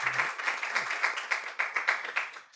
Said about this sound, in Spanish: Vamos a dar palmas al Señor por eso. Let's praise God for that.